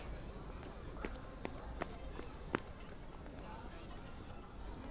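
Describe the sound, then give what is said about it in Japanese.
Someone running up out of breath produces a few quick, faint footfalls in a short run. The steps are spaced close together over a low background. “そんなに息切らして走ってこなくたっていいのに。”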